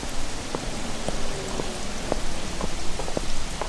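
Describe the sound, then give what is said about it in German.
Rain falling on a city street in Geneva: a dense, steady hiss with scattered individual drops tapping and splashing throughout, fairly even in loudness. “Trüben Gedanken hing er nach, als er durch das regennasse Genf trottete”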